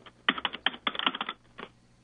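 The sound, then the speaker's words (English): Rapid typing on a computer keyboard: dense clusters of clicking keystrokes with brief gaps, then a pause and one final short burst of keys. “And he's pounding away on his keyboard.”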